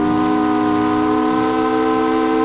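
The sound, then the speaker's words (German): Steamship siren hooting as a steamer sails into a bay in bright morning sunlight: one loud, steady, chord-like hoot that holds without a break for the whole clip, with no voices. “Früh am nächsten Morgen fährt der Dampfer unter gleißendem Sonnenlicht, fröhlicher Kapellmusik und lautem Tuten der Sirene in die Blanche-Bucht ein.”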